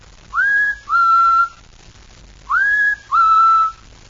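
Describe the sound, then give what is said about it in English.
A person whistles in imitation of a bird call: two pairs of clear, fairly high whistled notes. The first note of each pair slides up and the second holds steady, with a pause between the pairs. “I'm practicing bird calls.”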